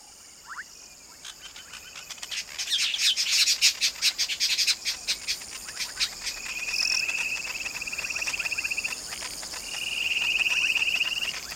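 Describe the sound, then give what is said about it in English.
Masked weaver birds call in a busy run of rapid, bright chirps, then shift to sustained buzzy, high trills. A faint insect hum runs underneath. “And for you birders out there, what you're hearing is the masked weaver bird.”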